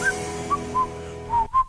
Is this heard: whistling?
yes